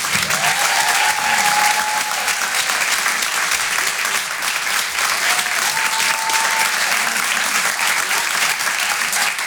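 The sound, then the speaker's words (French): Applause for a comedian making a first appearance at the Rire et Chanson Comedy Club: a crowd claps in a dense, steady wash of sound that stays loud and even from start to finish. “Je vous demande de l'encourager. Faites un maximum de bruit, s'il vous plaît, pour Thomas Christin.”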